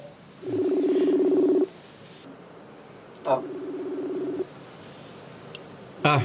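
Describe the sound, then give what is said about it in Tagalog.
Ringing tone on a telephone line as a call is placed: two buzzy, steady tones, the first longer than the second, separated by a pause, with a brief click near the end. “Ang mayo pa, tawagan ko guro si nung gudo ay. Tawagan ko siya guro.”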